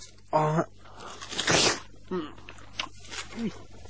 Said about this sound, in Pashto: څو واخله دا خټکی وخوره چې د ژوند په خوند پوه شي وروره داسې خټکی به دې په ټول عمر کې هم نه وي خوړلی